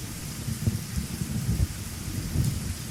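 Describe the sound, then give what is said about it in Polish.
Heavy steady rain pours down as a storm builds over a dark riverside, with thunder rumbling low and repeatedly beneath the hiss of the downpour. “Wszędzie ten przeklęty deszcz, który odgradza wam widoczność, jak ścianę.”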